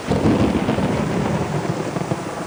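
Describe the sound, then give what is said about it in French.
Thunder rolls through a windy storm over woodland as a deep, loud, sustained rumble, with a steady hiss of rain underneath and no voices. “Un nouvel éclair illumine le bois et un effrayant coup de tonnerre retentit.”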